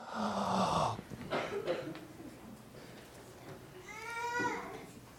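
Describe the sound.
Young people at a sermon gathering take a deep breath together: a loud, breathy rush lasting about a second, then quieter scattered voices and a brief voiced murmur near the end.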